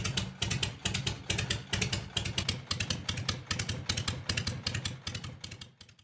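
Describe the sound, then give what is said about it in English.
An older kickstart V-twin Harley motorcycle idles slowly, its loping exhaust beats thumping in a steady, slightly uneven rhythm at moderate loudness, easing off toward the end. “That's it's definitely kickstart. It's an older bike. Yeah. V-twin? Yeah. Is it something like a 1940s Harley?”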